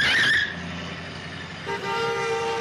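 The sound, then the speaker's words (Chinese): A car that nearly hit them passes with a brief high screech over rushing road noise, then a steady, tonal horn blares to the end. “look out for that car!”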